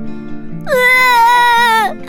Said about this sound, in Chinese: 菲菲哇的一声哭了出来，紧紧抱着妈妈。